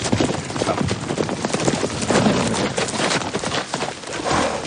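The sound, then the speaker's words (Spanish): Galloping hooves of lawmen's horses approaching in an Old West scene: a dense, continuous pounding rhythm that stays loud throughout. “Ya llega la caballería. Los agentes de la ley se aproximan al galope.”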